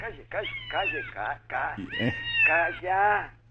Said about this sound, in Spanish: Dale algo, hija, dale algo de comer al gato.